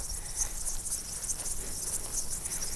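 Grasshoppers chirping in a flowery meadow: a dense, continuous, high-pitched insect chirring that stays steady and even throughout, with no voices.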